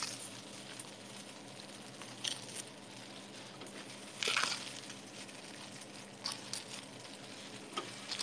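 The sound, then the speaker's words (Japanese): Noodles sizzle as they go into a heated frying pan, giving a faint, steady hiss dotted with a few sharper crackles and ticks, with no voices. “この熱を温めたフライパンに麺を入れます。”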